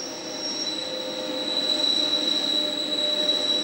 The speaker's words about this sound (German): Damals wie heute hört man die Achsen in den Kurven singen.